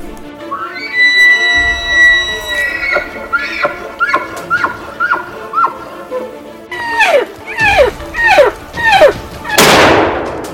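A single loud gunshot from a wolf hunt cracks sharply near the end. Before it comes a string of high, descending animal calls repeated in quick succession.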